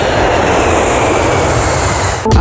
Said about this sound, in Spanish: Y con el avión nos vamos a México